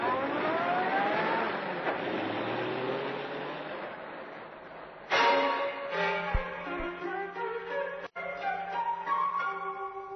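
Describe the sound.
A car drives away from a roadside shooting. The engine holds a steady, strong roar that slowly fades, then more engine noise follows with changing tones.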